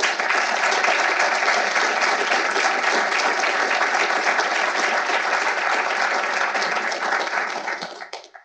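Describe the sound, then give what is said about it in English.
An audience applauds to welcome two speakers to the stage for a talk on Supreme Court cases. Dense, even clapping holds steady for about eight seconds before tapering off quickly. “Please give me a hand as I welcome Paul and Jeff to the stage.”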